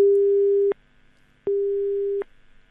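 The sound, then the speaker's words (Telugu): Telephone busy tone after a call is cut off: two steady, low-pitched tone pulses, each lasting under a second and separated by a short silence, sounding alone with no voices. “Call cut అయిపోయినట్టుంది.”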